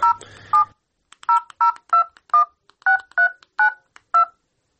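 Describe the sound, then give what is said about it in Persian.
Telephone keypad tones dial a number: ten short, evenly pitched beeps in an irregular rhythm, the first blended with brief noise, and no voices. “یک زنگ بزنم که کجا هستن و چی میکنن”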